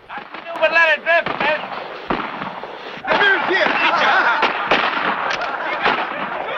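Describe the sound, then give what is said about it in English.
Gunfire from soldiers shooting at a boat in a film: rapid, sharp cracks and pops in irregular bursts, loud and continuous, with speech running over parts of the barrage. “The soldiers shoot at the Queen with unrestrained enthusiasm. Bullets tear holes into the boxes of blasting gelatin.”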